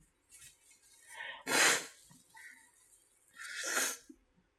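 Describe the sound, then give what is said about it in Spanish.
Two forceful nose blows, broad hissing bursts of air forced through the nostrils, separated by a pause with softer snuffles and breaths before and between them. “Y ahora me voy a sonar los mocos.”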